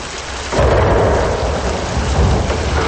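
Thunder and heavy rain from a thunderstorm: after a brief quieter moment, a loud rumbling roll breaks in about half a second in, over a dense, steady downpour that stays strong to the end. No voices.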